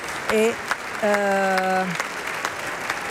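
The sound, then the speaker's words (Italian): A theatre audience applauds at a curtain call with dense, continuous clapping, while a voice calls out twice over it, the second call longer and held. “e tutti quanti adesso si avanzano per la seconda volta a prendere gli applausi del teatro.”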